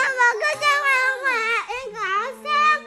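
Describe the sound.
A young child crying in a high, wavering, whiny voice. Drawn-out sobbing tones rise and fall continuously with brief breaks for breath.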